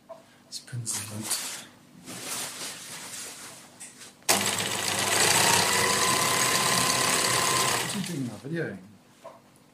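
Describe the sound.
A sewing machine stitches a big piece of green screen fabric meant for a backdrop. It runs as a loud, steady buzzing whir for several seconds, with talking before it starts and a voice after it stops.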